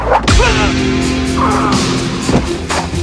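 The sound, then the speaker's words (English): A thrown axe strikes a man's chest during a village gunfight, a sharp, loud whip-like thwack near the start, followed later by a softer second hit within a dense background of effects. “Polly collapses, the axe buried in his chest.”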